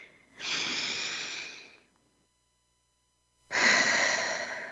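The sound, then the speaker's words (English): Deep breaths during a guided mindfulness session: two long, soft, airy breath sounds, each lasting over a second, separated by a stretch of silence. “To support you in this, I encourage you to keep taking those beautiful breaths.”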